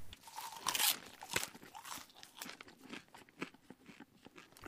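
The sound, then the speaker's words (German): Crunchy chewing as a person eats crunchy food: many sharp, irregular crunches and bites that come in quick bursts, loud at the start and then continuing more evenly, with no talk. “Zuerst muss er was essen.”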